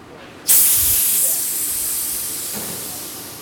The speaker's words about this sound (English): That's the sound of 130 pounds per square inch of carbon dioxide releasing from a fermentation chamber.